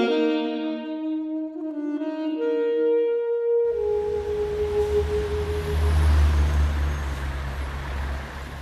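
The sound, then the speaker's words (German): Loud street traffic: a few sustained musical tones give way to a dense, steady roar and low rumble of passing vehicles that continues without a break. “Der Verkehr an einer lauten Straße.”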